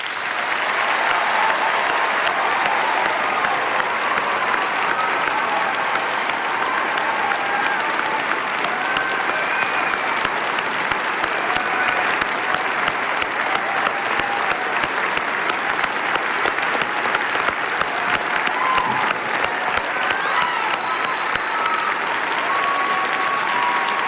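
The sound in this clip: A hall audience at a televised presidential debate applauds to welcome Barack Obama and Mitt Romney, a dense, steady roar of clapping that holds evenly for over twenty seconds.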